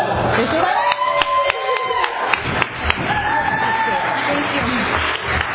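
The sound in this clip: Applause mixed with cheers and whistles from a Valley Group recovery meeting audience in Visalia welcoming the evening's speaker: a dense, steady wash of clapping that runs throughout, with shouts and whistled notes rising above it.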